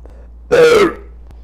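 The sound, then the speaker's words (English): A single human burp, low and voiced with a slightly falling pitch, lasting under half a second and standing loud and alone against a quiet background. “once again, that burp was brought to you by Great Lakes Brewery.”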